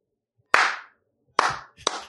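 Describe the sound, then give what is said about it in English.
Three sharp hand claps, each a loud, crisp smack with a short decaying tail, spaced unevenly apart as someone claps to switch a sound-activated clapper device on and off. “they had the smart clapper, which was clap on, clap off.”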